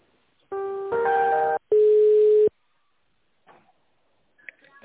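Telephone line tones play while a business call is transferred to another department: two sustained tones back to back, the second a single steady pitch, then near silence broken by a few faint clicks.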